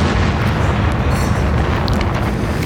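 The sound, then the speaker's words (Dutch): A massive explosion from a MOAB Massive Ordnance Airburst bomb tested at Eglin Air Force Base in Florida rolls on as a continuous, loud, deep roar that fills the whole clip without a pause, and no voices are heard. “wat horen wij hier? De bom der bommen, de moederbom die wordt aangekondigd.”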